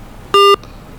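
A telephone line gives a single short electronic beep after a call is cut off. The tone is steady and loud, lasts about a fifth of a second and stands alone against a faint background hiss.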